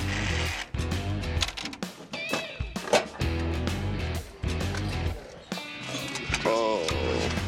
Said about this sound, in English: Well, this is... coin return. It's stuck like glue. See that? It's got sand in it because nobody blew it in. Okay, that's coin return.